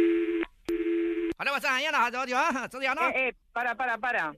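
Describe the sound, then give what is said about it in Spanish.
Telephone tones while a customer service call about cancelling an order is transferred: two steady electronic tones, the second longer, then a clear voice talking. “Entonces, le transfiero la llamada y después que le devuelvan la llamada conmigo, ¿vale?”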